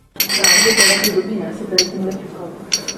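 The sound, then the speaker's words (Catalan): Glasses clink together in a toast among friends: a quick cluster of bright, ringing chinks at the start, then a few sparser clinks that each ring out briefly. “Ah, molt bé, això eren unes copes, jo vaig dir que era com un cambrer recollint les copes així amb la mà. Era un brindis entre amics.”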